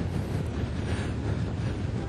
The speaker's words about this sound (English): Now there's a freight train going the other direction. We have double tracks in town.